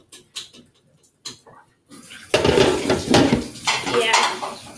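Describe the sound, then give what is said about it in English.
A lid is set back on a pan where a burger is cooking. A few light clicks come first, then a louder metallic clatter, followed by continued clattering and bubbling. “Here, I'll put the lid on again.”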